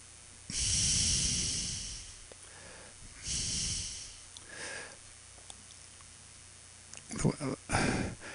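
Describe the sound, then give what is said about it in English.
Deep breaths taken during a moment of silence: two long, airy inhalations and exhalations with a soft sniffing quality, followed by quieter pauses and a few short, breathy puffs near the end. “I'm doing a moment of silence. And deep breaths.”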